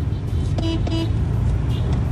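A car horn gives two short, steady honks over a continuous low rumble of road traffic while a car is driven home, the traffic noise carrying on alone after the honks.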